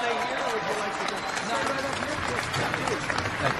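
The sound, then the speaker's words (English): Troops in Afghanistan applaud Trump with dense, continuous clapping, and voices are mixed in throughout. “Listen to the applause as Trump rolls out in front of the troops in Afghanistan yesterday.”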